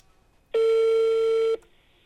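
A telephone ringback tone sounds while a call is being placed: one steady, buzzy tone lasting about a second. It starts and stops abruptly, with near silence before and after.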